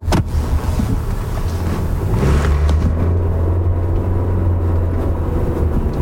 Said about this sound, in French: Je roule actuellement sur le boulevard Saguenay. Je suis en face de l'usine d'Arvida. Puis, je roule en direction d'Arvida.